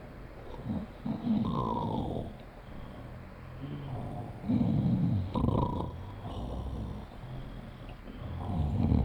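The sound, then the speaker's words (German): Rasping snoring of a sleeper on a February night, a few slow snore cycles of deep guttural rumble separated by quieter breathing gaps, with no talk. “Schnarch, schnarch.”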